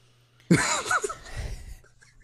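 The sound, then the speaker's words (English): A big, sharp intake of breath, a sudden loud gasp with a breathy, partly voiced edge that holds for about a second and then trails off into quiet. “Boy, took that big breath.”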